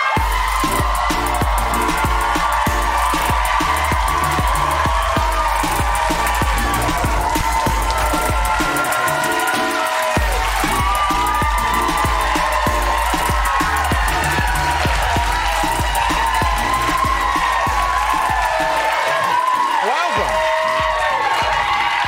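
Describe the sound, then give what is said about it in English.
Loud, sustained cheering and applause from a studio audience greeting a guest on a talk show, a dense wall of clapping and whooping crowd voices that holds steady throughout. “This is so lovely. I didn't know the audience was going to go so crazy.”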